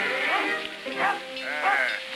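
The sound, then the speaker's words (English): Sheep in a flock being herded by two dogs bleat in a few wavering, quavering calls that overlap and come and go over a constant low background. “Scott and Lassie circle around the flock of sheep and head them in the opposite direction.”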